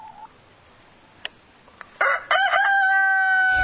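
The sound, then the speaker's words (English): A rooster crows in the background, one long drawn-out call that starts about halfway through and carries to the end, after a couple of faint clicks. “It was like Miss Cleo on her farm. I hear fucking chickens”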